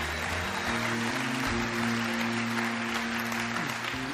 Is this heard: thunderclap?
no